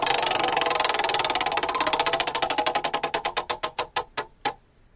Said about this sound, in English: Let's spin the wheel.